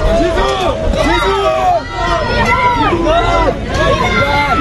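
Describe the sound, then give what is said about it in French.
Turkish supporters greet the French national football team arriving at its hotel. A loud, dense crowd of voices shouts and cheers without pause, with chanting rising and falling throughout. “écoutez l'arrivée du quart de l'équipe de France à l'hôtel, accueilli par des supporters turcs”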